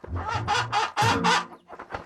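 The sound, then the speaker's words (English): Chickens clucking while being picked up and handled, several loud, harsh squawks in quick succession followed by fainter, softer clucks. “Before you go, take these four chickens as my gift to you.”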